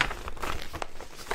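Paper being handled and crinkled slowly and gently: a soft, continuous crackly rustle with a few brighter crinkles over a brief moment, with no voices.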